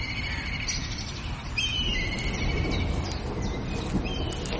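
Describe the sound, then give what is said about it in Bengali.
Birds calling in a forest at evening, given as crows returning and cawing without pause; thin chirping calls ride over a steady, broad noise bed for the whole stretch, with no voices. “কাকেরা বনের মধ্যে ফিরে এসে অবিরাম চিৎকার করছে”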